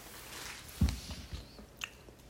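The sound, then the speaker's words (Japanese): Soft biting and chewing of a blue ramune-flavoured gummy candy, a few quiet squishy bites with one firmer chomp near the start, and no talking. “青、青、いただきます。カンデミーナね。これラムネ味か。いただきます。”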